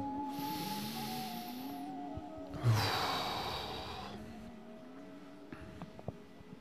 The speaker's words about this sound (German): Lass uns mal einen tiefen Atemzug nehmen, oder?